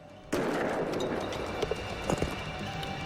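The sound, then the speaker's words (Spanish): A bomb-disposal water cannon fires at a suspected bomb with a sudden, sharp blast, then a sustained rushing spray marked by a few small knocks. “Volvieron a usar el cañón de agua. Dispara cuando estés listo.”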